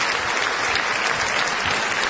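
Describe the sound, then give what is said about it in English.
An audience claps in a dense, even burst of applause, many hands blending into a continuous patter that stays at a steady moderate level from start to finish. “No, they're clapping. They're clapping.”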